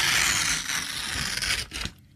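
A paper contract being handled and torn, producing a continuous rough ripping and rustling for about two seconds before it stops.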